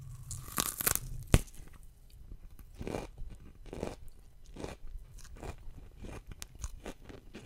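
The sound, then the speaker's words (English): A stalk of rhubarb is bitten and snapped with one sharp crack near the start, then many quiet, irregular crunching chews follow. “Rhubarb. You got the snap part right. Now just listen in the end. Near the end, there's little pops.”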